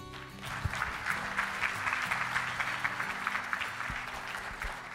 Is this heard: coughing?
no